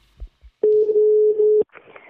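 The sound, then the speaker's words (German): Ringback tone of an outgoing telephone call to a psychologist: a single steady, pure electronic tone holds for about a second, preceded by a couple of faint clicks and followed by a brief, softer noise. “Anruf bei der Psychologin Julia von Weiler.”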